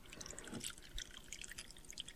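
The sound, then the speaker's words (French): Amber liquid is poured into a glass, a steady faint trickling with light splashy drips throughout. “Alors, on verse.”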